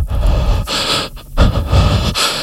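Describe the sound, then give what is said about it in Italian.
A voice imitates heavy, rasping horror-film breathing: a few long, noisy breaths in and out, loud and airy, with no words spoken. “Questa è la musica generalmente dei film horror, e tu e vedi questo che si sente il respiro,”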